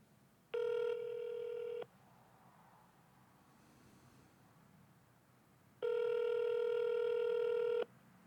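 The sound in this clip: Telephone tones on a call to a number that cannot be reached: two long, steady, buzzy tones, the second longer, separated by several seconds of faint hiss, with no voices.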